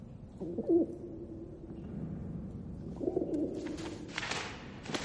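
A pigeon coos twice, each a low, soft, throaty call, separated by a couple of seconds and followed by a few brief rustling bursts.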